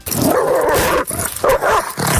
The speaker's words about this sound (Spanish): Ese es el sonido de un perro mordiendo a una persona.